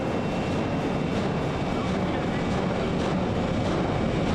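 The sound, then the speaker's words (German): A Herrenknecht tunnel boring machine starts up, giving off a loud, steady mechanical roar and rumble that stays constant throughout with no clear pauses. “Die Maschine läuft an.”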